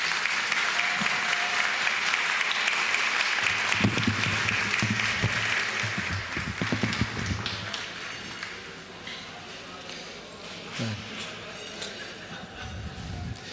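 Sustained audience applause with dense, steady clapping that runs throughout and eases slightly in the second half.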